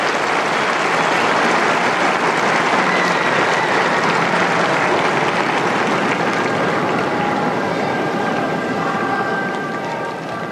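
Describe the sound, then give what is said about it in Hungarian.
An audience gives the Pope a big, sustained round of applause in thanks for his presence and catechesis. The dense clapping stays loud and steady throughout, easing only slightly at the very end. “a szokás szerint egy nagy tapssal köszönik meg a Szent Atyának a mai jelenlétét, katekézisét.”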